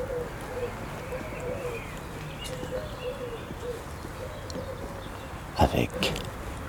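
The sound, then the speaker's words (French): Many birds calling together, with soft repeated cooing phrases running steadily at low level and a short louder flurry of sound near the end. “une multitude d'oiseaux cohabitent.”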